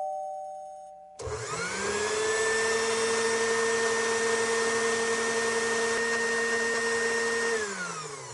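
An electric blender switches on abruptly and runs with a loud, steady motor whine and roar, then its pitch drops as it starts to wind down near the end.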